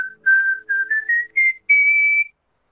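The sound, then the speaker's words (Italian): A person whistles clearly and loudly alone, sounding a short series of separate notes that step upward in pitch and end on a longer held tone. “Dunque, questo è il fischio classico”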